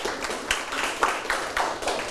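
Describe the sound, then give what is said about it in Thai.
Clapping for a classmate in a class: a dense, noisy patter of many hands with a few stronger bursts at uneven intervals, steady and moderately loud. “ถูกไหมปรบมือให้เพื่อน”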